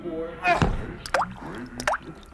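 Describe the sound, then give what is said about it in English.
Tea poured into a cup, heard as light clinks and short, bright rising liquid tones, following a brief voice at the start. “It's time for tea. Tea? Now? You keep them at bay while I pour us a cup.”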